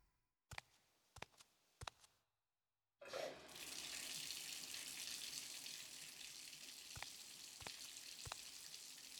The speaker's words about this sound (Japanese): お湯たまるまで時間かかるから先に体洗っちゃおうね。